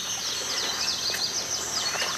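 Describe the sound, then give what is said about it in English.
Birds chirp on a lush Georgia or South Carolina sea island with giant oaks, salt marshes and lagoons: many quick, high-pitched calls repeat over a steady, hissing background. “The birds compose a symphony around you.”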